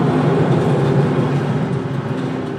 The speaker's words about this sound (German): Genau, der fährt jetzt, macht jetzt noch voll den Greifer, dann fährt er ihn zur Mitte, gibt den auf und dann wandert die Schlacke rüber zu unserer Aufbereitung.